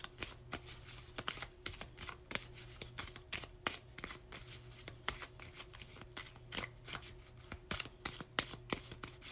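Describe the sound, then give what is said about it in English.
Cards from a Lenormand deck being shuffled and drawn, with many crisp riffling clicks and snaps in a steady, busy rhythm throughout and no talking. “Let's see if we can get two more cards from the Lenormand deck.”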